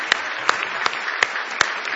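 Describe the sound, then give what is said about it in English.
Worshippers at a church camp meeting clap their hands in praise, producing a steady, dense wash of clapping punctuated by louder claps at regular intervals. “Why don't you give Jesus a big hand clap of praise if you love him this morning.”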